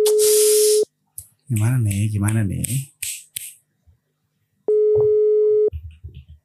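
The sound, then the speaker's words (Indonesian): Telephone ringing tone during a call: two long, steady, mid-pitched beeps, one at the start and one later, with people talking between them. “Oh, udah ringing. Oke. Mudah-mudahan tapi masih calling ya.”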